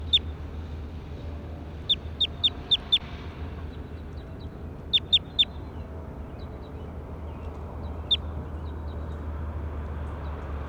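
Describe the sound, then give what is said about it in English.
A recorded bird call: short, high chirps arrive in clusters of a few quick notes, with single chirps between them, all over a steady low hum. “That was bird two.”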